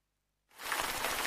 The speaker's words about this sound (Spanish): La lluvia.